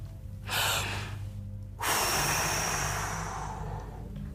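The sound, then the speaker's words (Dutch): A voice imitates a breath as God breathing life into the first human: a short airy puff, then a long, loud, rushing inhalation that slowly fades away. “Doet God. De allereerste mens begint te ademen zo.”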